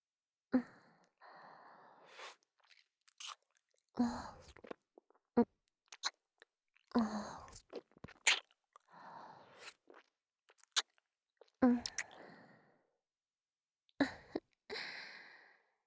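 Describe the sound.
Chewing and biting mouth sounds from an eating roleplay arrive as irregular crunchy, wet bursts separated by short silences, with no talking.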